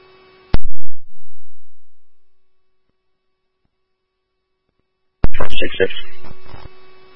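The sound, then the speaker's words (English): A laptop sounds an electronic phone-call request tone: a loud, steady beep that cuts off abruptly. After a long silence the tone returns, joined by a burst of clattering noise. “Sending a phone call request to your laptop.”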